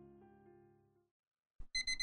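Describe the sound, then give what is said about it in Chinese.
An electronic alarm clock goes off: a short burst of bright, high beeping tones near the end, after a fading low tone and a moment of silence. “就在这时，闹钟响了，时间到了。”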